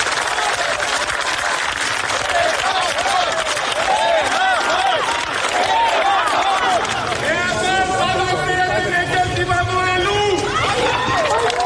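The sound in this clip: Applause and calls from a crowd gathered outside an arrival hall around the Catholicos at his car: dense, steady clapping with voices, and strong shouting or chanting voices in the second half.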